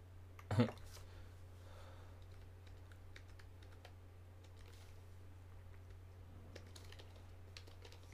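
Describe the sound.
Faint computer keyboard typing: a few soft, scattered clicks over a steady low hum, with one louder thump near the start.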